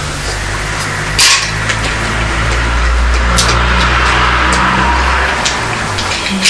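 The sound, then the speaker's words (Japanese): Garbage truck: a steady, loud engine rumble with a deep low hum throughout, joined by occasional metallic clanks and rattles. “パトロールか、ここか、清掃車、これだ”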